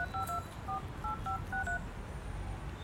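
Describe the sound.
Touch-tone telephone keypad beeps as a number is dialed: a quick series of short, clean, two-pitch tones with small gaps between them. A faint steady hiss continues after the tones stop.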